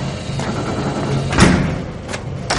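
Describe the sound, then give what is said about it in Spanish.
A door is opened as a man enters a building, followed by others. A soft thud lands near the middle, with a couple of fainter knocks and clicks after it. “Junior abre la puerta y entra seguido de Miles y Dave.”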